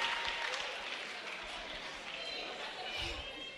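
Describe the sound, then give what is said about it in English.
Church audience applauding to welcome a member who is about to give his testimony: steady, fairly faint clapping that continues throughout with a small swell near the end. “Please put your hands together for him.”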